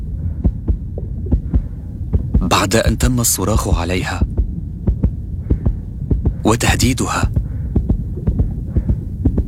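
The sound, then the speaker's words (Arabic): A nurse's heartbeat throbs in many quick, regular low thumps that continue throughout, while a voice speaks over part of it. “هذا صوت معدل ضربات قلب ممرضة”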